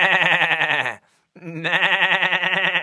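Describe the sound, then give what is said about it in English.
A human voice imitates a billy goat bleating: two loud, long, wavering bleats with a strong tremble, separated by a short silent gap. “the largest old billy goat had a whole mouth full of them and looked right straight at me and shook his head and billowed,”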